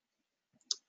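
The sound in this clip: A single sharp computer mouse click rings out, faint and crisp, after a few soft small rustles.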